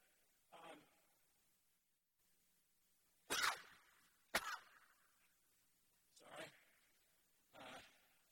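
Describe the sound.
Sneezing from someone in a gathering: a few sharp, breathy bursts scattered across a quiet stretch, the two in the middle loudest and crispest, the others softer and more muffled.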